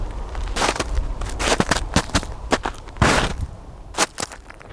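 Footsteps crunching over a snow-covered frozen lake, Lake Mendota in Madison, Wisconsin: many irregular, crisp steps with a gritty hiss, fairly loud and alone without voices.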